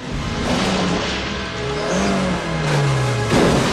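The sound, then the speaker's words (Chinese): Two cars, a sports car and an old vintage car, accelerating toward each other on a bridge at night, roaring engines with rising drawn-out whines and rushing noise, loud and sustained. “最终两车在桥上相对，纷纷加速行驶。就在要迎头撞上之时，”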